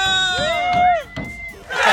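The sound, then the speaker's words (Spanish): A crowd shouts a cheer at a street prize giveaway: loud, high voices with gliding pitch, a brief dip, then a noisy surge of yelling at the end. “¡Y venga el grito!”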